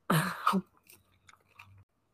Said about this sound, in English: Sorry, I started to eat already.